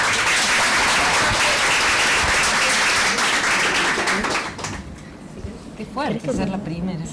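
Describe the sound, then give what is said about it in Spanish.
Audience applause at a book presentation: dense, steady clapping for about four and a half seconds, then thinning out as a voice starts speaking. “Damos un fuerte aplauso.”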